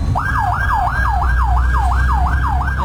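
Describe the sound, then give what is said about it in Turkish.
Fire engine siren racing through a Diyarbakır boulevard to a reported fire: a loud, rapid yelping wail that repeats in quick sweeps, each rising sharply then falling, over a low traffic rumble. “Silvan Bulvarı'nda yangın ihbarı için yola çıkan itfaiye ekiplerine sürücüler yol vermek için fermuar sistemine geçti.”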